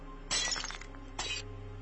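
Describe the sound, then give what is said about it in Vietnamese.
A glass cup slips from a hand and shatters, giving two bright, crashing bursts of breaking glass with a tinkling tail, the first longer and the second shorter, against a quiet background. “Cái cốc đang cầm trên tay tuột ra, mảnh thủy tinh rơi vỡ tan tành.”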